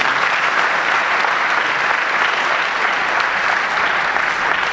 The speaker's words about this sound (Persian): دست بزنید برادران.